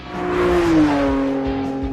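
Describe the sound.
A personal car's engine hums steadily while driving to a vehicle inspection. The drone holds an even, moderately loud level and dips slightly in pitch partway through, with no talk over it.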